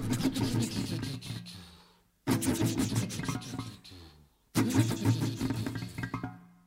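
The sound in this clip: A car engine cranks but fails to start: three separate grinding attempts of about two seconds each, divided by short silences, the motor never catching.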